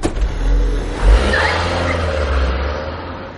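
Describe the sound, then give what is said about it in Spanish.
Car driving away outside a hospital entrance: the engine rumbles and revs as it pulls off over asphalt, and the sound holds fairly loud before slowly fading as the car leaves. “El coche se aleja.”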